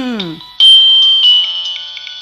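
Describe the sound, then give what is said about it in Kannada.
Phone ringtone of an incoming call: a voice speaks briefly, then a steady, high electronic tone begins and sounds loud and continuous, pulsing slightly as it repeats. “ಒಂದು ಕಾಲ್ ಬಂದ ಬಿಟ್ ನೋಡ್ರಿ ನಿಮ್ ಫೋನ್ಗೆ”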